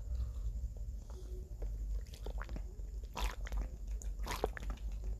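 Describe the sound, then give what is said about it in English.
Someone drinks water in a few quick sips and wet gulps, with soft mouth and liquid sounds over a low background rumble. “apologies, y'all. I had to drink some water real quick to talk about until almost 35 minutes. So my mouth got perched.”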